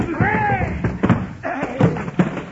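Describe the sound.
Stacked boxes in a room of contraband guns are pushed over onto a man. A few heavy, dull thuds land in the second half, and voices cry out and talk around the crashes.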